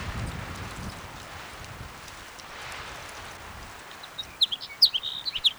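Sparrow song: a few short, bright chirps come in near the end over a steady, faint background rush like wind.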